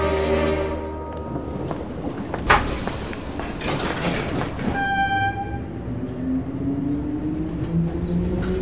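A train pulling away: a rumbling carriage and rail noise, a brief horn-like tone, then a motor whine that climbs in pitch as the train gathers speed.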